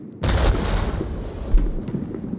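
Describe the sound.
A single heavy boom as an artillery gun fires a shell, bursting in abruptly and trailing into a loud, sustained rumbling roar that stays strong to the end, with a brief second swell partway through.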